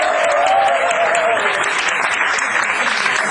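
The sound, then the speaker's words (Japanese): Audience applause at a 1970s pop concert: dense, steady clapping that stays at an even, full level through the whole stretch with no break. “拍手をいただきましょう。”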